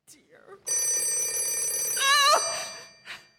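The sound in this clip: A telephone bell rings in one long, steady, metallic peal that cuts off abruptly, with brief faint sounds before and after it.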